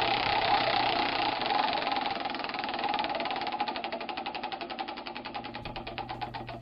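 Prize wheel spun in a game, a dense rapid ratcheting clatter that gradually slows, the ticks growing more distinct and widely spaced toward the end, with no talk.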